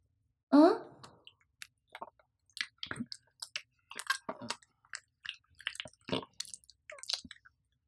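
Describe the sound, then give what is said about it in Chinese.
A dog chews its food with many rapid, wet, crunchy bites and smacks in an irregular rhythm, after one louder opening burst. “小贱狗， 天呐，告诉我，新主人，你吃的香不香？”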